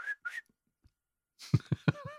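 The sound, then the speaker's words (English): Whistling of a traditional 17th-century Japanese shepherd's song, opening with two short, clear whistled notes, then a pause and a run of louder sounds. “That is the 17th century traditional Japanese song of a shepherd. Ah, whistling song.”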